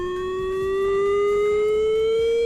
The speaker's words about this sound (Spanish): Es la sirena de emergencia química que sonará entre las 10:30 y las 11 en el municipio alavés.